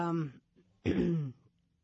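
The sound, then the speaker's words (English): A man coughs in two harsh, throaty bursts separated by a short pause, with a voiced, throat-clearing quality. “sorry about that. He's got a little cough.”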